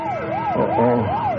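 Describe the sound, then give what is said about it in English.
A bank alarm wails as a siren, its pitch sweeping up and down in smooth repeated cycles. It sounds loud and continuous the whole time, with a lower steady tone underneath. “Oh, somebody in the bank must have hit the alarm.”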